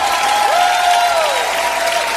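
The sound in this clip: Applause from a worship audience, a dense, steady wash of clapping that holds at an even level throughout, with a sustained tone running above it.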